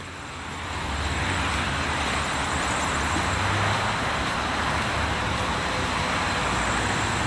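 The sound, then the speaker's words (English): Rush-hour traffic on I-94 heard from the far side of a highway sound wall: a steady, broad roar of cars and trucks that swells in over the first second and then holds evenly, with no voices. “So the sound's coming up, because I'm on the other side of the sound wall. The sounds coming up are I-94. People driving in rush hour.”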